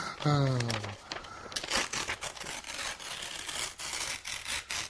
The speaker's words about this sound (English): It's so tough to rip this. Force rip!